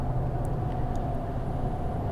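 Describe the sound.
A car drives on the road with a steady, low engine and road hum that stays even throughout, with no talk.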